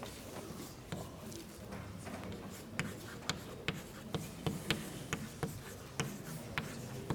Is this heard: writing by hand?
yes